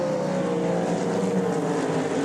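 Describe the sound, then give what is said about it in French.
Loud engine roar from a blue Cadillac endurance race car at a 24-hour endurance race, a continuous buzzing drone with a strong steady tone that holds level throughout. “C'est une équipe qui roule habituellement en IMSA, le championnat américain d'endurance, avec cette Cadillac bleue floquée du numéro 110.”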